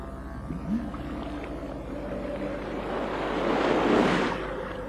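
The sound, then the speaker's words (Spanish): Sea waves make a broad, hissing wash of surf that builds gradually to a full swell near the end over a low, droning undertone. “¡El mar! Sí, el mar Lidenbrock.”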